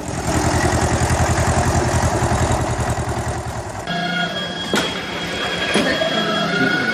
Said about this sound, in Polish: Ten odgłos to jest dojarka, tak, jesteśmy właśnie tutaj w naszej oborze.